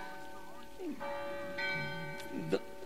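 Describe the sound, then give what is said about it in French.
Church bells ring with sustained, pure tones during a public talk, with a voice heard over them. “on écoute les... Ça repose, les cloches. Enfin, un son pur par rapport à mes paroles polluées, là.”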